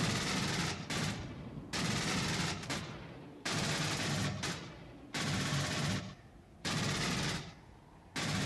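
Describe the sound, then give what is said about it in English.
A futuristic battle rifle from a science-fiction film firing as a sound effect, many loud bursts of rapid automatic fire separated by brief gaps. “It's the battle rifle from Aliens.”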